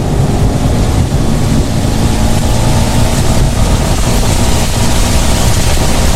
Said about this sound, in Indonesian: hujan nih, aku ngebut ya.